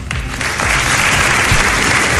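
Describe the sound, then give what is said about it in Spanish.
Applause breaks a minute of silence in the courtyard of the Antequera town hall at a 25N institutional act against gender violence, a dense, loud, continuous clapping of a crowd that swells slightly and holds steady. “Es el aplauso que ha roto el minuto de silencio que se ha guardado en el patio del Ayuntamiento de Antequera”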